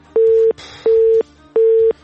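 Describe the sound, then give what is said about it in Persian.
A telephone busy tone after a dropped call on a call-in line: three evenly spaced, identical steady beeps with short gaps between them, heard alone. “تماس برادر ما فیض الله جان همکاری دائمی ما قطع شد، بازم کوشش کنن تماس بگیرن”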